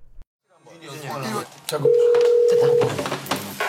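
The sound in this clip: A telephone ring tone sounds at the start of a call to a TV show team: a steady, even tone lasting about a second, surrounded by voices and other busy sound.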